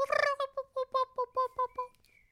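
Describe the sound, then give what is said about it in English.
A bird calls outside a window: one longer opening call, then a run of short, evenly spaced harmonic notes. The calls are clear and fairly loud against quiet, and trail off at the end. “I'm sorry, but I could hear a bird outside your window”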